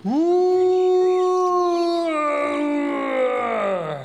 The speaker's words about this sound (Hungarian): Füleltek, s megint meghallották a tompa, panaszos üvöltést.